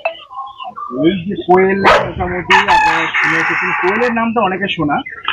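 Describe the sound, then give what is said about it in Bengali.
Japanese quail calling: loud, repeated harmonic calls and crowing notes overlap in a dense, busy stretch, with short bright cries rising above sustained tones. “Japanese Koel”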